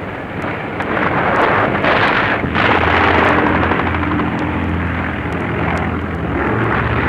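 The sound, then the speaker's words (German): Heavy roar of Soviet bomber aircraft flying overhead during a wartime attack on a wooded enemy position: a loud, steady, dense drone that holds throughout with little change and no voices. “Sowjetische Bomber.”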